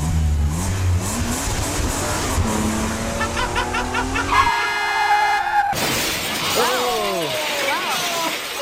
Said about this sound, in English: That is a burly sounding Prius.